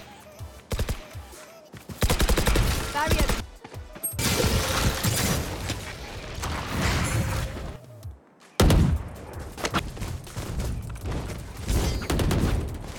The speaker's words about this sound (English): go for a counter strafe and try to hit your first shots on this target up here